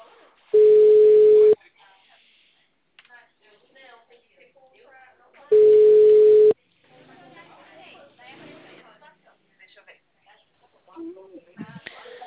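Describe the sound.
A phone line tone sounds after a call is hung up: two steady mid-pitched beeps, each about a second long, separated by several seconds of talk.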